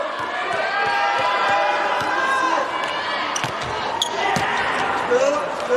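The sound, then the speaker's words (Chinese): A volleyball is bounced several times and then served at a professional match involving Brazil's team, with sharp thuds over steady crowd noise and a commentator's voice. “麦亚拉上来发球”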